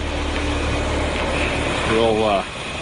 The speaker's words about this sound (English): This is a Herman Nelson, basically a portable heater. It'll loosen everything up because the oil's freezing right now